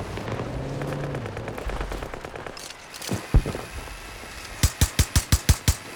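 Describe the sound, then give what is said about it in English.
An M60 machine gun fires in a video game. A couple of isolated shots come first, then a rapid, evenly spaced burst of loud shots near the end. “Reloading weapon. M60 might be good, my new go-to now. It's really good.”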